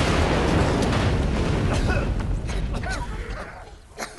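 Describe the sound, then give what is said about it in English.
A tunnel explodes in a heavy rumbling blast, a broad, dense roar that stays loud at first and then slowly fades over about four seconds. “The green bolt zaps from the man's eyes. The tunnel explodes.”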